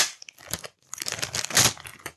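A paper envelope holding a book is torn open, with dense crinkling and tearing bursts, a short pause near the start, then louder rustling that peaks toward the end.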